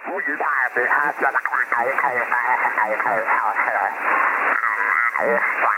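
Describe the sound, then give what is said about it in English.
Distorted radio voice from an upper sideband receiver tuned above the signal: continuous speech that sounds low, muddy and unnaturally shifted, with a narrow, boxy tone and no clear crispness. “If your radio is set for upper sideband and you're above the signal you want at a higher frequency than that signal, the voice will sound low and muddy, like this.”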